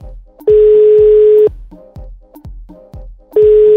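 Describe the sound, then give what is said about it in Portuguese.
Telephone ringback tone as a call rings out unanswered, one steady one-second beep, a long pause, then a second beep beginning, loud and clear with no voices. “Vamos ligar mais uma vez? Sempre é bom, a gente sempre tenta 3 vezes, né?”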